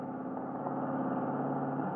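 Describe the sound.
Car engine running as the vehicle pulls in at a gas station, a low, even, steady hum that stays faint and unchanging throughout with no voices.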